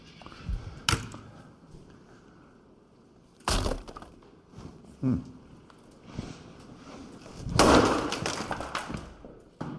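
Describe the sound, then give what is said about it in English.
Sharp impact hits from a wrestling video game land a few times, spaced seconds apart. Each one is a brief, hard thud-crack over a faint, low background. “So what do you guys think of this impact sound effect? Hold on.”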